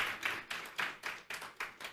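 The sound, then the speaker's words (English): Faint, unison clapping from a church audience applauding their pastor: about eight evenly timed claps, each with a short decay, and no voices over them. “Would you put your hands together and give Pastor Adam a great big hand?”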